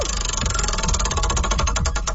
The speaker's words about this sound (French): On va te faire tourner une roue. Il y a plein de prix que tu pourrais gagner.